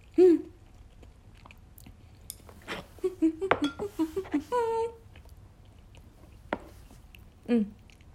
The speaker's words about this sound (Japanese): チンジャオロースを食べます。